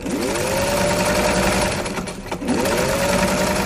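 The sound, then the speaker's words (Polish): A sewing machine stitches bags and backpacks, running in a fast, even whir that pauses briefly past the midpoint and then resumes at the same steady pace. “Dziewczyny uczą się, jak szyć torby, plecaki, nerki, które później trafiają do Polski.”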